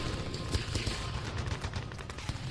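Gunfire rattles in rapid, irregular bursts, with many sharp shots packed closely together at a fairly low, even level throughout.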